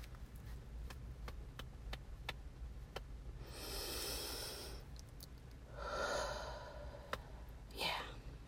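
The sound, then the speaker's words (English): A group takes deep breaths, giving faint, drawn-out breathy rushes of air, one after another, after a few soft clicks. “Everybody just take a deep breath. Everybody take a... take a deep breath.”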